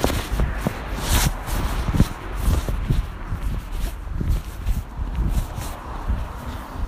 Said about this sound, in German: Also auf jeden Fall, ich laufe jetzt hier so an ein paar Häuser vorbei, ne?